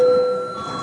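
A parliament session bell rung after a break, heard as a steady electric ring of sustained, bright tones that starts loud and eases slightly over its short length.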